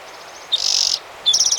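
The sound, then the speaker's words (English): High-pitched chirping from birds outside, heard as a few short, rapidly pulsing trills with brief gaps between them. “Maybe two birds out there.”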